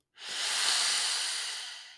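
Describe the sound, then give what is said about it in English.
A deep, slow breath: one long airy hiss that swells quickly and then fades gradually over nearly two seconds, heard on its own without talk. “take a big, bold, beautiful breath.”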